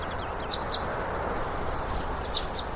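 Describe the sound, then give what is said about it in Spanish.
A greenfinch singing in an olive tree gives a few short, high chirps, faint above a steady hiss of background noise. “¿Es el que canta? ¿Es un ruiseñor? No, no es un ruiseñor, es un verdún.”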